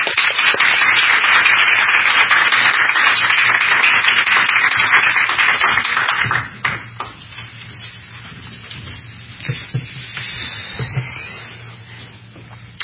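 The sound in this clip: Audience applause welcoming a speaker at a morning event: dense, steady clapping from many hands for about six seconds, then abruptly dying away to a few scattered claps and small noises.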